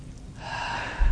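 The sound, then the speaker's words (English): A deep breath drawn in, a soft, airy rush of air that swells after a brief quiet start and lasts about a second, with no talking. “including everyone take a really deep breath right now”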